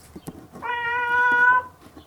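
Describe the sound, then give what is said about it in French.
A cat meows once in the middle of a hallway, a single clear, tonal, drawn-out meow about a second long that stands out against quiet surroundings. “Elle les attendait, miaulait au beau milieu du couloir.”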